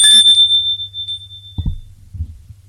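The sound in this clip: A doorbell rings with one bright, high metallic chime that hangs and slowly fades, followed by a couple of soft low thuds.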